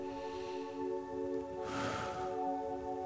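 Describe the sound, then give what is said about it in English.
Deep inhaled breath taken during a guided prayer: a single soft, breathy rush of noise lasting under a second, rising over a steady, sustained musical drone that continues throughout. “Take in a deep breath.”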